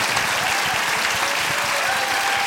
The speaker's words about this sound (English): And all right, go give her a hand. Good job.